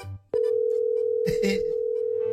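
A telephone tone sounds after a call has been cut off. Following a brief noise, a steady, unbroken mid-pitched tone starts and holds evenly to the end.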